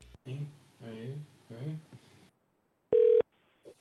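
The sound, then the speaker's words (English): A telephone being dialed. After a stretch of talk, a single loud, steady electronic tone sounds briefly, followed by a faint short blip. “All right, here we go. Dialing.”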